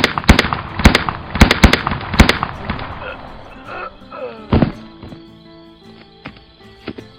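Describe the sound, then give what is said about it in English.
Gunshots ring out in a video game Western duel: a quick run of sharp, loud cracks in the first seconds, then one heavier bang a little later, followed by quieter clatter and soft low tones. “You shouldn't be standing. And you shouldn't shoot a man on two.”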